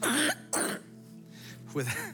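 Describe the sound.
Coughing in an audience during a morning prayer: a few short, harsh bursts with a quieter gap between them.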